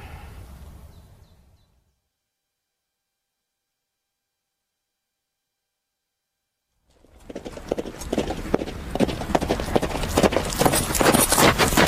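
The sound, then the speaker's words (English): Horse hoofbeats from a horse being ridden at a gallop past Longwood. A brief low rumble opens, then a few seconds of silence, then a dense run of rapid, sharp thuds that continues loudly to the end. “Oh, well, I didn't know you were going to gallop off. You've got to give Tolly his head past Longwood. You were riding like a maniac.”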